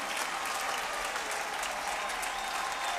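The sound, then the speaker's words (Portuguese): Crowd applause at a religious worship service, a dense, steady clapping that stays loud and even from start to finish with no break. “Aplauda mesmo ao Senhor Jesus.”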